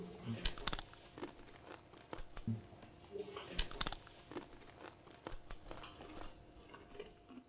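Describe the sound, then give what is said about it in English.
Crisp, irregular crunching and crinkling as bitter herb (maror) is chewed at a Passover seder, with many short, sharp bursts spread through the whole stretch over a low background. “Let's take, beloved, of the maror, the bitter herb.”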